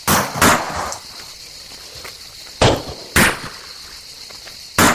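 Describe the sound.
Gunshots in a radio drama ring out as sharp, loud bangs: two close together at the start, then two more a little apart, and one more at the very end, over a low background hiss.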